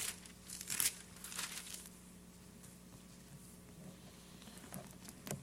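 Bible pages being turned to 1 Timothy chapter 2: a few soft papery crinkles and rustles at the start, then the sound settles into a faint, low hum with occasional light flutters.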